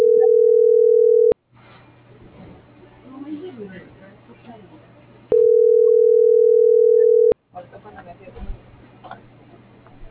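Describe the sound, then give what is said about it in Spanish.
A telephone line rings unanswered, with two long, steady ringback tones about four seconds apart and faint muffled voices and background noise in the gap between them. “¿No te contesta? No. Pero la línea no le contesta.”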